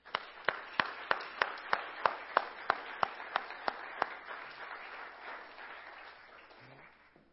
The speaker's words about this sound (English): would you guys please just be very honoring and just give a good welcome to Katie Potaski